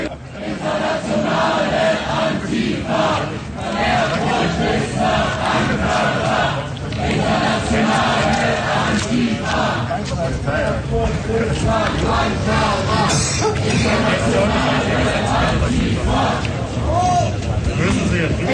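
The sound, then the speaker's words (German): Detained protesters on Cyriakstraße in Gotha chanting and singing; loud, steady massed voices with rhythmic group chants and singing throughout. “Die Protestierenden, die derzeit hier festgesetzt werden, haben aber zumindest von außen betrachtet noch recht gute Laune. Sprechchöre und Gesänge wechseln sich hier ab.”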